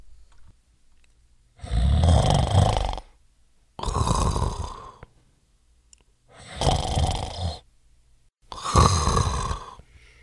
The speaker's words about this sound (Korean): 삼손은 그것도 모르고 쿨쿨 잠을 자고 있었습니다.